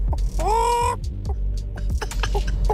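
A person imitates a chicken clucking: a drawn-out nasal, squawking vocal note, then a string of short, choppy throaty clucks, fairly loud.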